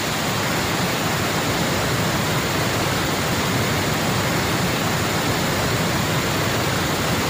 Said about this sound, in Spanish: Sí, esto que estamos escuchando, ¿a dónde corresponde? Pues mira, este es el salto del nervio.